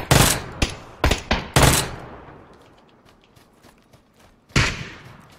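Video game gunfire: loud, sharp shots in rapid bursts and short clusters, then a pause of a few seconds before another burst of shots.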